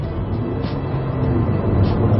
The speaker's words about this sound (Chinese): 这个响了很多。实际上这并不是真正的发动机的声音传入到车内，而是雷克萨斯做的一套模拟的这种怎么说呢，算是音响系统来增加这种运动的氛围。